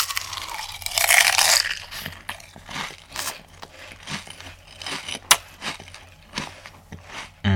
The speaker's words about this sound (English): ASMR Lays edition.